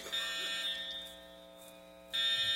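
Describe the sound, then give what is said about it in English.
A building fire alarm sounds a steady, piercing high-pitched tone that runs continuously, easing slightly in level before surging louder again near the end. “sometimes we have false alarms on our fire alarm, especially when it's humid outside.”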